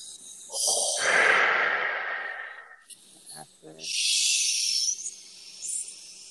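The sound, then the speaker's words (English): Long, airy exhalations from a person during a breathing and voice exercise: two drawn-out hissing breaths separated by a short gap holding a few brief, softer sounds. “So we're going to breathe out again.”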